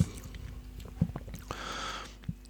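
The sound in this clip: Soft chewing of grapefruit: faint, wet, squishy bites with a few crisp clicks and one louder smacking burst, close and quiet, with no talk.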